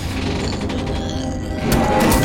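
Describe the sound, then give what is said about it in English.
Mechanical ratcheting and creaking as a hatch mechanism is worked open, a dense continuous grinding of gears and catches that grows a little louder and brighter near the end, with no voices. “just open the hatch”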